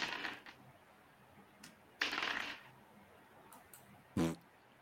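Dice rolled during a tabletop role-playing game clatter in a few short, faint rattling bursts separated by quiet gaps.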